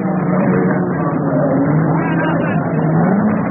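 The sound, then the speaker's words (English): Race car engines roar at the Le Mans endurance race as a dense, continuous, loud drone. The pitch shifts and wavers, and the sound runs without a break throughout. “Listen to the sound of Le Mans.”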